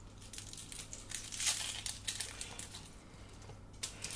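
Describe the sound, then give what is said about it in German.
Dry, papery crinkling and tearing as the outer skin is peeled off a halved onion, with its tip cut away. Many small, irregular crackles stay faint throughout, with no talking. “Dann nehmen wir uns die zweite Zwiebel vor, halbieren oben unten die Spitze abschneiden. Dann die oberste Schale abziehen.”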